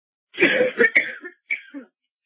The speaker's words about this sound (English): Excuse me as I choke.